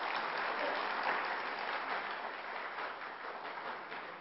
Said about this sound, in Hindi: हम सभी इस ग्रुप का करतल ध्वनि द्वारा स्वागत करते हैं।